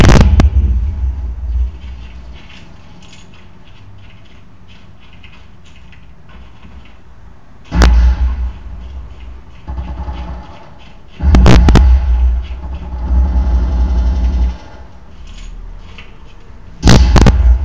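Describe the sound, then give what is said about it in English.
Grenade explosions in a video game burst out as several loud, booming blasts with heavy low rumble, separated by stretches of quieter crackling game noise. “Just throw another grenade.”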